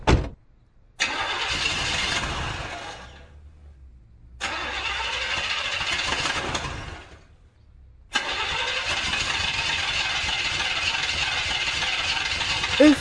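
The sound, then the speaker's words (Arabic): A broken-down car fails to start on a very hot day: the starter cranks in three long, rattling bursts separated by short pauses, and the engine never catches. “ليش ما عم تشتغل السيارة؟ هلا وقتك انت التانية؟ ايه ما بيكفي درجة الحرارة مليون، كمان السيارة عطلانة؟”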